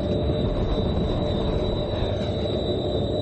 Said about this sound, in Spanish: Un tren pasa por varias estaciones.